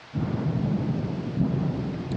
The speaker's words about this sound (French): Les roulements du tonnerre, bien qu'assourdis par les arbres, allaient en augmentant.